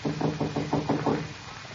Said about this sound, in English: Will I knock?